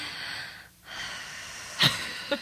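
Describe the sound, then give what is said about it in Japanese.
A long, airy deep breath drawn close to the mic, broken by a brief gap partway through, then a second noisy breath ending with a couple of faint clicks; no one talks. “一回深呼吸したら”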